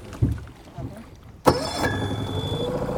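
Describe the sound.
A brand-new boat engine running roughly on a lake: after a few faint low thumps, a sharp burst at about one and a half seconds gives way to a steady, loud droning hum with a thin whine above it.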